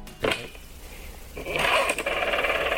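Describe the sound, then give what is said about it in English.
Dialing a number on an old-style telephone: a brief click and a short quiet stretch, then a louder, steady mechanical whirring with fast rattling clicks that runs to the end. “What's this? Dialing the number, aren't I?”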